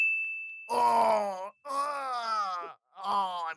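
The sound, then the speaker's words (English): A man groans in pain three times, each groan drawn out with a wavering pitch and separated by brief gaps. A steady high ding tone sounds before the first groan. “I'm groaning in pain. I'm groaning in pain because I was in a hot tub. Ow. I'm groaning in pain from all of the brutal moves and stunts.”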